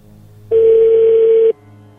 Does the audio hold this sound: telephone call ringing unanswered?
yes